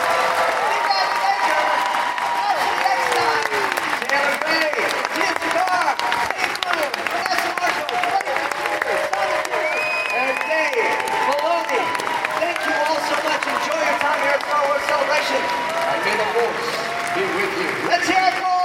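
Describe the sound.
An audience gives sustained applause for Star Wars Rebels cosplayers, a steady, dense clapping with light cheering and crowd chatter underneath throughout.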